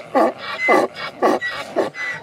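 Burros at a town contest for farmers give a rhythmic run of short, throaty, grunting calls. The calls are roughly evenly spaced, fairly loud and heard on their own.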